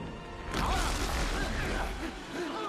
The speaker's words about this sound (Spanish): ¡Ahora! Choca contra el otro lado donde están los demás. El fragmento cae al vacío.